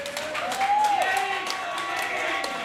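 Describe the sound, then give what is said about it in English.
A crowd at a live fight event gives a round of applause, with many hands clapping steadily at moderate loudness across the whole stretch. “Give yourself a round of applause.”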